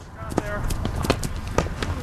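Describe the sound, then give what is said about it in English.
Players running a drill in hurling, the traditional Irish stick sport: quick, scattered footfalls and sharp taps come in an uneven rhythm, with people talking over them. “That's the sound of players running a drill, practicing the traditional Irish sport of hurling.”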